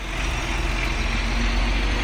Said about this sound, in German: Ein knapp 17 Meter langer LKW kurft vorsichtig durch ein kenianisches Dorf, vorbei an provisorischen Verkaufsständen aus Holz und Wellblech. Die Zugmaschine schleppt einen weißen Container,